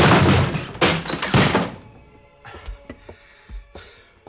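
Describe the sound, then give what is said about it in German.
A door is kicked in: a loud, heavy crash with a splintering burst fills the first moments, followed by a few softer, scattered thuds as the noise dies away. “Wenn er das Eintreten der Tür nicht gehört hat, ist er stocktaub.”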